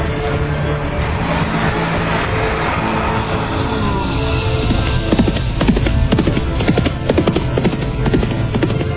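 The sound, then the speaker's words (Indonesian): Horse hooves clip-clop steadily as the horse is ridden at an unhurried trot. Many rapid beats continue evenly throughout over a dense, continuous backdrop. “Dia berkuda tidak terlampau kencang.”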